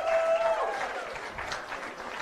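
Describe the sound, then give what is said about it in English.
Audience applause for a mayoral candidate taking the stage at a morning event, with a crowd clapping steadily throughout and easing slightly toward the end. “Again, a round of applause for Mayor Washington.”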